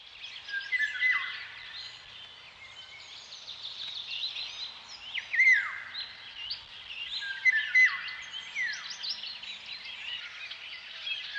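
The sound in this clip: Golden oriole song: fluting whistled phrases with swooping slurs, repeated several times amid dense, steady chirping from other birds.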